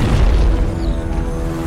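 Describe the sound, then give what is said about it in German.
Deep booming cannon fire from Spanish warships opening fire on pirates in a bay, a loud low thud at the start that rolls into a sustained heavy rumble. “hinter ihm drei gewaltige spanische Kriegsschiffe auftauchen, die sofort das Kanonenfeuer gegen die verhassten Piraten eröffnen.”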